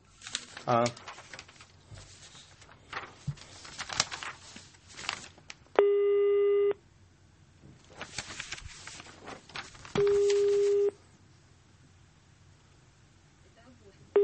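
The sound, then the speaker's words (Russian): Telephone busy signal from a call that will not connect: two long, steady mid-pitched tones, with the start of a third at the very end, separated by stretches of talk and background noise. “Ну вот видите, пытаемся дозвониться, ничего не получается.”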